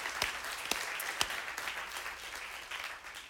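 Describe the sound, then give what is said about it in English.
A church audience in North Attleboro applauds to welcome the Taunton location. The clapping is dense and steady, with a few sharper claps standing out, and no voices. “And so, everybody here in North Attleboro, why don't we give Taunton a hand and welcome them in?”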